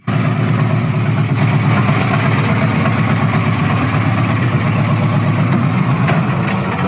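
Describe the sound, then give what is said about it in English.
A 1968 car engine with 111,000 miles idles roughly, apparently needing a carburettor clean. Its loud, steady low rumble carries an uneven pulsing throughout, with no talk. “starts and drives. Engine ran smooth, currently runs rough, probably needs a carb clean.”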